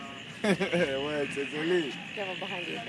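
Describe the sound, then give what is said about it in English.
A bunch of toads breeding in a bramble of branches: a steady high trilling drone runs throughout, with louder warbling, harmonic calls rising over it in bursts. “is the sound of a bunch of frogs breeding in a bramble of branches. C'est les crapauds.”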